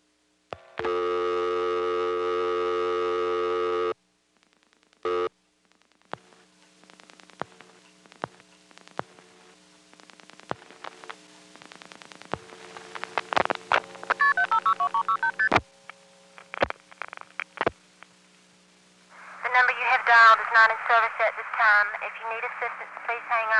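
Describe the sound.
Telephone dialing a vacant number on an NX1 exchange: a steady dial tone, then brief touch-tone beeps, followed by a long run of switching clicks and ticks before a recorded voice begins.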